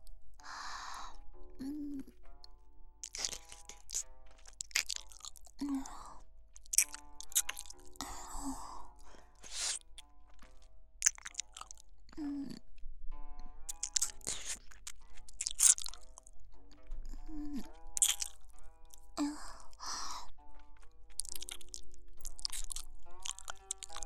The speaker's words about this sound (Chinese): 谢殿下。那么，奴婢就继续吃了。